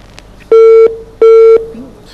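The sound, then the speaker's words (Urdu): Two loud, steady mid-pitched beeps of equal length mark a phone call dropping on a call-in health program line, separated by a short gap, with quiet background hiss between them. “یہ کال ہم سے drop ہو گئی۔”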